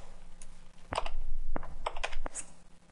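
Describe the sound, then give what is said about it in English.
Someone types on a computer keyboard and presses the Tab key while writing code. Several crisp, irregular key clicks land close together over a faint background hum. “I type the word prop and hit Tab to expand it. The property is already set to an integer type, so I can just hit Tab to name it.”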